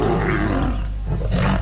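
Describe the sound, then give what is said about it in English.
A lion in Uganda roars: a loud, deep, rough rumble that holds steady for under two seconds and swells again near the end. “That sound is becoming harder to hear in Uganda. The country now has just 291 lions,”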